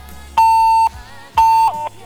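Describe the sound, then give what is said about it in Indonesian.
Disconnect tone beeps after a phone call cuts off: two long, steady, mid-pitched electronic beeps separated by a short gap, the second briefly broken near its end, loud against quiet background. “Tut tut tut, sepertinya pulsanya habis atau mungkin baterainya habis nih.”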